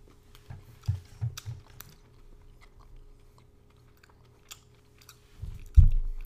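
Chewing on milk chocolate with a salted caramel flavour: a few soft, crunchy bites close together early on, quiet chewing after, then one louder crunching bite near the end.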